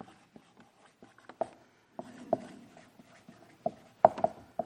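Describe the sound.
A pen scratches as something is written down by hand: a run of short, faint strokes and taps, with a few sharper marks standing out near the end.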